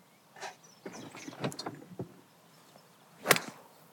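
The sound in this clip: A golf ball struck thinly with poor contact on a long approach shot: one sharp, bright click near the end, preceded by scattered soft knocks and rustles.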